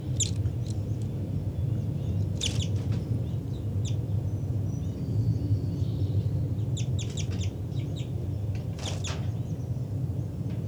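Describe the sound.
Birds calling at a nest: a few short, high chirping calls at intervals, with clearer bursts near the start and end, over a steady low rumble of background noise.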